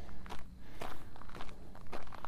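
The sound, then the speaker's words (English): Footsteps of a person walking up a hill, with many evenly paced, soft, crunching steps in a steady rhythm over a constant background rush. “I am free to walk up and down this hill.”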